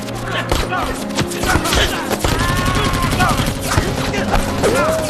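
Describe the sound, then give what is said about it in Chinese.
Rapid machine-gun fire during a battle, with dense bursts of sharp shots packed close together across the whole stretch. Other sounds and a voice run under the gunfire. “给我上机枪！”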